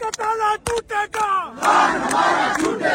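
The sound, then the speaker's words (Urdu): Activists chant slogans outside Adiala jail near a police checkpoint. A single voice calls out short lines, and then a loud crowd answers with a sustained roar. “کارکنان کی جانب سے نعرے بازی کی گئی۔”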